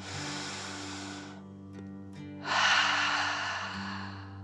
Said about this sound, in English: Relax down into the sand and breathe like a dragon, in and out.